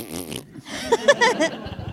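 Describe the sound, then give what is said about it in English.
A buzzy, wavering fart sound plays in a comedy segment about rating feet. It is short and stops and starts over about two seconds, with a brief gap near the start. “Two farts down.”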